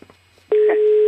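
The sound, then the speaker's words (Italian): A telephone sounds: after a few faint soft knocks, a loud, steady, low electronic tone starts abruptly and holds unbroken to the end. “Oh mamma, squilla un telefono.”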